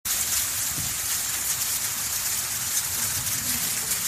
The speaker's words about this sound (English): That's the sound of ash rain soon after the Hungatonga Hungahaapai volcano erupted on January 15th.